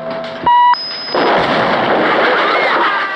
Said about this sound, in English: the bomb explodes behind him